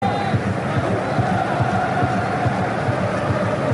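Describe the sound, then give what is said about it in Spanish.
German football fans cheering in a stadium, a loud, steady crowd roar with a sustained chant-like tone near the start and blended voices throughout. “Alienta el público alemán.”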